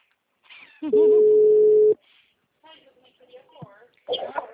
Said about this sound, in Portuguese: Oi, a ligação caiu, desculpa.